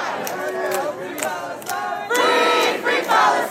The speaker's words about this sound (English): That's the sound of chanting early this morning on Columbia University's campus.